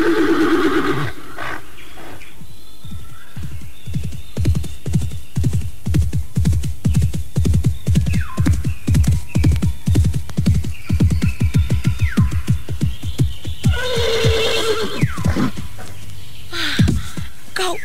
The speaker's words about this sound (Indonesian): Kau kuda yang sangat baik